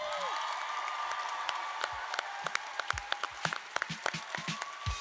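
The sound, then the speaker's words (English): Applause for the performers on stage during an awards placing ceremony, thin and faint, with scattered individual claps and a few sharper, louder ones spread unevenly through the stretch. “So a round of applause to everybody in this building.”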